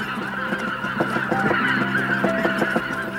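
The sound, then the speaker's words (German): Wild geese honk in a dense, continuous flock chorus, many overlapping calls repeating steadily throughout with no voices. “Schauen wir, die Wildgänse kommen schon zurück. Das ist ein gutes Zeichen.”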